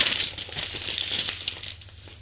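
Paper envelope being closed: soft, crisp rustling and crinkling of paper with a few light taps, continuous and fairly quiet throughout, no voices.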